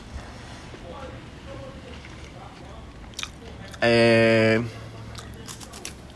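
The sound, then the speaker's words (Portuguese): A person chewing while eating, with soft biting and crunchy mouth sounds under talk. “E hoje eu estou aqui comendo.”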